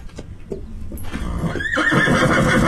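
A horse neighing in a barn: a loud, quavering whinny that swells and holds, preceded by some softer snorts and stirring, with no voices.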